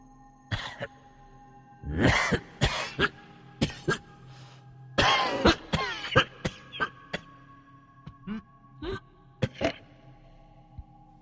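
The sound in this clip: Harsh, rattling coughs from a room where a body lies: many coughing bursts, some in tight clusters and others spaced apart, loud and alone without talk.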